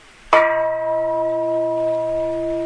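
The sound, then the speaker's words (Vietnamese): A bell struck once, hard, during a Buddhist dharma talk: a sharp loud strike followed by a long, steady ringing tone with clear sustained overtones that barely decays. “Bây giờ chú cười đánh cho thầy một tiếng chuông, đánh cho thầy một tiếng chuông mạnh lên.”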